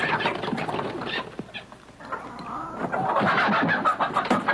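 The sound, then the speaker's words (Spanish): Hen clucking in a series of short, irregular calls that rise and fall in loudness. “La gallinita, Ave María.”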